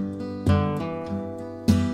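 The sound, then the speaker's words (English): Sweltering chords on an instrument, played out on a deck in Mount Juliet, Tennessee, on a hot, humid summer day. A few rich chords strike sharply, ring and slowly fade, with softer notes sounding between them. “And I just started playing these sweltering chords like this.”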